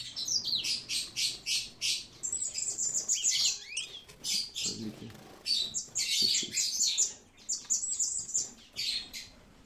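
Pet bird parents with two older young and newly hatched chicks chirp and squawk constantly in many quick, high, rapid bursts.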